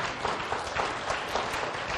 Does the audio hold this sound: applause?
yes